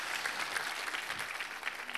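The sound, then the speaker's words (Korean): Congregation applauding in a church during an early-morning New Year special prayer service: quiet, dense, steady clapping lasting about two seconds without a pause. “우리 하나님께 감사와 영광의 박수를 올려드리겠습니다.”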